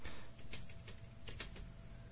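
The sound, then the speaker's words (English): Keys are struck hard on a foldable keyboard, giving a quick, uneven run of many sharp plastic clicks over a steady background hiss. “So this is a demonstration how to use the foldable keyboard. And I'm really whacking on these keys here so you can hear them.”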